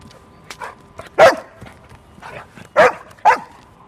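A dog barks during search training with its handler, who is sending it off in set directions. Three loud, sharp barks stand out among softer yips and whines.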